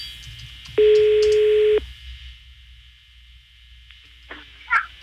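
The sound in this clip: A phone line rings after a redialed call, giving a single steady ringing tone of about one second, followed by a quiet line with faint background noise.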